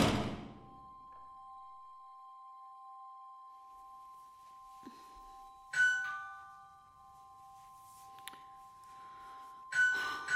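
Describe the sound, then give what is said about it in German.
An apartment doorbell chimes faintly. Two brief, bright ding accents sit over a steady, sustained two-note tone. “Ich weiß schon, sie macht nicht auf. Sie ist nicht da. Ich klingel trotzdem.”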